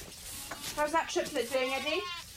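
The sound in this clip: Sheep and lambs bleating in a pen: a few short, wavering bleats in quick succession, moderately loud over a quiet background.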